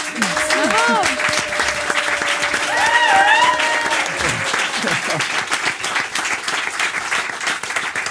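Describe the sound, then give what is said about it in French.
Audience applause greets a guest walking onto a French television talk-show set, a steady, dense wash of clapping lasting several seconds, with crowd voices mixed in. “Elle lande sur le ring, une ovation pour Sarah Ouramoun.”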